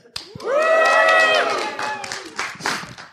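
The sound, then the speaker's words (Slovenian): A live audience answers a call to cheer with a loud, sustained shout of many voices that swells and holds, then breaks into scattered claps and calls that trail off. “da dokažemo, da tole res snemamo pred živim in še kako živahnim občinstvom, bom zdaj prosil občinstvo, da se oglasi. Občinstvo, oglasi se.”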